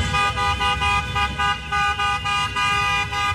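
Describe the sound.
Car horns honk in a convoy welcoming the Turkish national football team in Los Angeles, many loud, bright toots sounding in a quick, repeating rhythm with engine rumble beneath.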